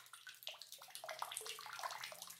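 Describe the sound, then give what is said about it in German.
Water dripping from a tap: many quick, plinking drops falling in an irregular, steady stream, faint and heard alone. “Da tropft etwas, keine Ahnung.”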